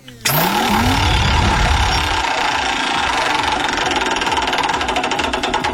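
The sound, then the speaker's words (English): A game-show prize wheel spinning: a loud, steady rush of rapid mechanical clicking that runs without pause for several seconds, the individual ticks growing more distinct toward the end. “let's spin the Wheel of Fun and see if we can win you a prize”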